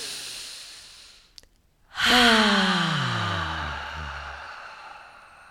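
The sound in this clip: A deep breath swells in suddenly and turns into a long, loud voiced sigh whose tone slides downward over about three seconds, with a brief faint click shortly before it.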